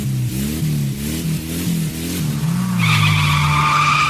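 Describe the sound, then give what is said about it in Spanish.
Rally car skidding during the Acropolis Rally. The engine revs up and drops back in repeated steps, then a steady, high tire squeal rings out over the engine drone. “Derrapando.”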